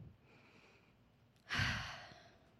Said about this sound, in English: I want to invite you to take a deep breath with me right now. Let's take a deep breath in this moment.